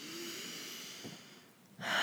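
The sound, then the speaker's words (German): A deep breath drawn in during a guided meditation: a soft, airy rush of breathing that fades, then swells into a louder, fuller gust of air near the end. “Und lege gerne zum Abschluss beide Hände auf dein Herz und atme einmal ganz tief diese Energie und diese Liebe ein.”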